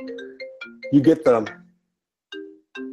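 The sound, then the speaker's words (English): A phone ringtone announces an incoming call with a melodic run of short, clear tonal notes that stops partway and then resumes. A brief burst of voice-like sound overlaps the middle of the ringing. “Got a phone call in the middle of the podcast.”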